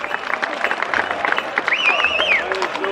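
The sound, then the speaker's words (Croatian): Crowd applause sends off the Karaula cavalry riders in a procession column, a dense steady patter of clapping mixed with crowd noise and a thin high tonal whistle. “Još jednim aplauzom ispratimo konjicu karaule.”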